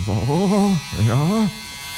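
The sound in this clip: A human voice imitates an electric shaver buzzing on a guinea pig. It comes in two loud droning bursts whose pitch swings up and back down, with a short gap between them.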